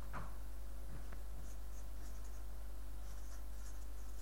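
A word is written by hand, giving faint scratching pen strokes in short bursts over a steady low hum.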